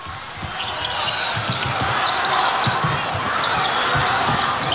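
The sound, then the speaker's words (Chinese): A basketball dribbled up to the frontcourt by the Czech team in an overtime game against China, with quick repeated bounces thudding through a constant crowd din. “捷克队运球到前场”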